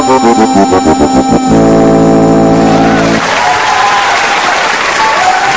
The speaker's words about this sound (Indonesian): Terima kasih buat tepuk tangan yang jenengan kabehan-kabehan aja.